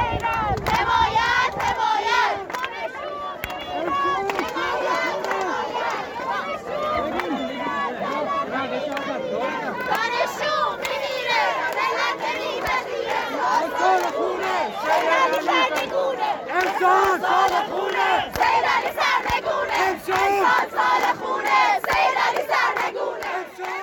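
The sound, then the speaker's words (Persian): Protesting students chant slogans at a rally at Islamic Azad University in Hamadan, where female students have removed their headscarves. Many loud, shouting voices rise and fall continuously throughout. “دانشجویان دختر به نشانه اعتراض روسریهایشان را برداشتند و شعار دادند”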